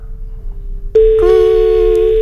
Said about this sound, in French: Ça sonne, ça sonne.